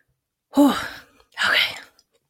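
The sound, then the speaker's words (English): A speaker's breath sounds in two short breathy bursts, moderately loud, separated by a brief pause, with no other sound around them. “took a breath.”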